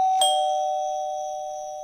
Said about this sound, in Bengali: তবুও সেসব দিকে নজর না দিয়ে কলিং বেল বাজাল।